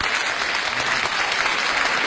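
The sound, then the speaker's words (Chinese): Studio audience applause welcoming two guests onto a variety show stage in Beijing, a thick, even burst of many hands clapping at constant loudness from start to finish. “下面我们就用掌声有请两位嘉宾和观众见面。”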